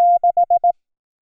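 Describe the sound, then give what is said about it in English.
Morse code beeps sound in a steady, clear pure tone: one long beep, then four short, evenly spaced ones, then silence. “Here's the Morse code.”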